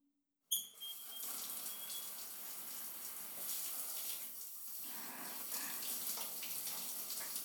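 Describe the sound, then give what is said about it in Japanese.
Running water rinses massage oil off a body: a steady, dense splash that starts abruptly after a brief silence and continues evenly to the end, with no voices. “じゃあさっきついたオイル流しちゃいますね。”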